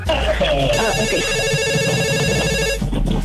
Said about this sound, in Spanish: Tenemos otra llamada telefónica que nos va a decir qué canción quiere dedicar.